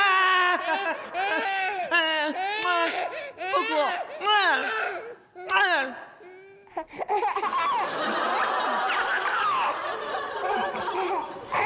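An infant crying in a run of high, wavering wails with short breaks between them, followed by a quieter, breathier and more broken stretch toward the end.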